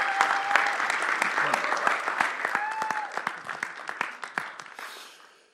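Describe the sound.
A church audience applauds to welcome a speaker: bright, brisk clapping with a few voices calling out, gradually thinning and fading away at the end.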